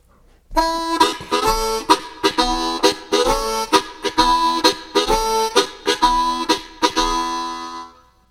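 Harmonica plays simple chords with tongue clicks, a bright, reedy series of many short rhythmic chord stabs punctuated by percussive clicks. The instrument plays alone for about seven seconds before fading out.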